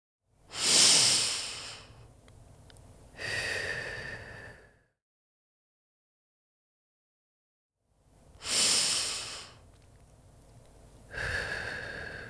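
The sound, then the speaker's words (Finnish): Deep breathing, in through the nose and out through the mouth: two slow cycles, each a loud, hissing inhale followed by a softer, airy exhale, with a long silent pause between the cycles. “Hengitä pari kertaa syvään. Nenän kautta sisään ja suun tai nenän kautta ulos.”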